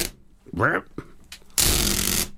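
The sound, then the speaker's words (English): Sellotape pulled off the reel, a loud, rasping, screechy tear lasting under a second, preceded by a brief voice. “Play it for you again. Any guesses? Yeah, it's pulling sticky tape, sellotape, off the reel.”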